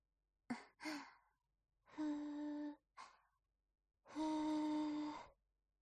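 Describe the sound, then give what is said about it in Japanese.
Soft blowing to cool hot food before feeding someone, breathy and partly voiced. Two quick short puffs are followed by a long one, another short one, then a final long puff, faint and with nothing else around. “暑いですからふうふうしてあげますね”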